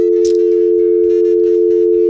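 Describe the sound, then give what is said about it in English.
A telephone dial tone hums steadily and continuously at a fixed pitch, loud and unbroken from start to finish, with no voices over it. “We'll put this on, and there's the dial tone there.”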